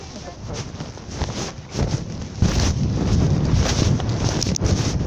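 Wind blowing across the microphone as a steady, rumbling buffet with heavy low-end roar. The gusting swells noticeably after about two and a half seconds and then stays strong and continuous.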